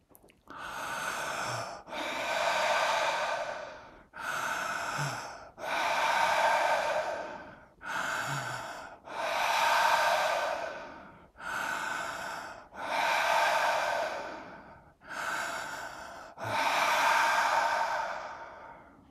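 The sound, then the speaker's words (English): Conscious connected breathing through the mouth: five cycles of loud, airy breaths, each pair pressing straight into the next with no pause. The pattern repeats evenly throughout. “the conscious connected breath that we do looks and sounds like this. And you'll notice that more energy is actually put into the inhalation than the exhalation. So let's do this together. Try it 5 times with me.”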